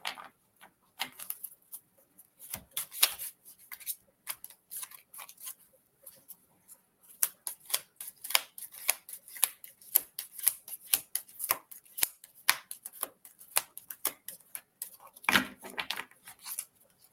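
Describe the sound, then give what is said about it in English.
Stiff playing cards being shuffled: dry, crisp flicking and clicking snaps in dense bursts, with a brief lull partway through, then a steady run of rapid riffling clicks. “Wow, these cards are stiff all of a sudden.”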